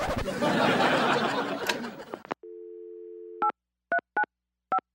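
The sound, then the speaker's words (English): Telephone keypad dialing: a steady two-note dial tone holds for about a second, then four short dual-tone key presses follow at uneven intervals, after an opening stretch of dense, noisy sound. “First up is his latest voicemail message.”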